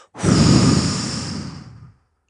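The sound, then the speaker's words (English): A deep exhale during a breathing exercise, one long, breathy release of air that starts strong and gradually tapers off over nearly two seconds, with no talking. “Sustain and exhale it out.”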